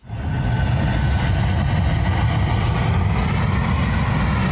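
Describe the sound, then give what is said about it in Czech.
An airliner landing at České Budějovice airport: a loud, steady, rumbling roar that sets in suddenly and holds without a break. “Z bezpečné vzdálenosti jsme pozorovali přistávání dopravního letounu.”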